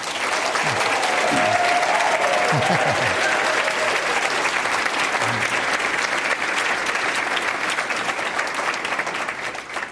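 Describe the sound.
Applause from an audience welcoming a guest onto the stage, dense and steady for the whole stretch with no one talking over it.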